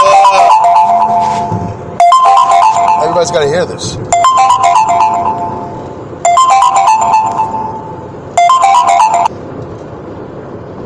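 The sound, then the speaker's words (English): A phone ringtone for an incoming call plays as a bright electronic melody that repeats in short bursts about every two seconds, about five in all. A voice talks over the ringing. “Who's calling me? Oh, boy. Let me see. I can't take that call now. How do I take this call?”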